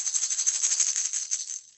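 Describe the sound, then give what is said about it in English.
A rattlesnake's rattle used as a Western movie sound effect: a rapid, dry, high buzzing that holds steady, then fades away at the end. “I think that was the sound from a Western movie. It's the sound of a rattlesnake.”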